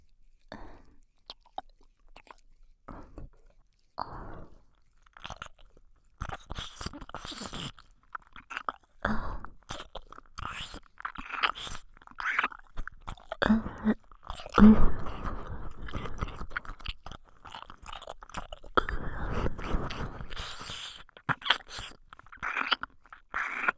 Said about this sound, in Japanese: ここからはもっと激しく、坊ちゃまのお耳の中まで舌を入れて、愛撫させていただきます。